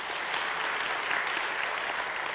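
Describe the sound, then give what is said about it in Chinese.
Applause from an audience at a healing prayer meeting, steady, even clapping that fills the whole stretch without breaks. “俾啲掌声嗬！”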